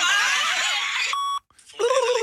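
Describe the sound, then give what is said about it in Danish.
A single short electronic beep tone, played through headphones lying on a table, cuts in as a steady bright pitched burst with clear overtones, framed by voices and laughter-like sounds before and after. “så nu kom bip-tonen ind der”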